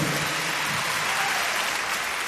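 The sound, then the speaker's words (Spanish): Dense, steady applause from an audience at a live salsa music show fills the whole stretch as an even, loud wash of many hands clapping, with no voices over it. “Gracias por esos aplausos.”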